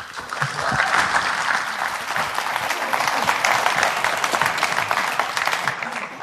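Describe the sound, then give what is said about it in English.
An audience claps warmly to welcome a man invited up to give the first session of a Saturday morning event, with dense, even clapping that holds at a steady level throughout. “So I'm going to invite Joel to come up right now. And why don't we give him a warm welcome?”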